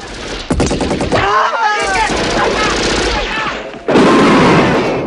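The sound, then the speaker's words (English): Machine gun fire rattles in a dense, loud, continuous burst as soldiers are gunned down near a villa's lawn and the woods, with a sharper surge of fire near the end. “A soldier tries creeping up on John from the side and gets a burst of fire in the chest.”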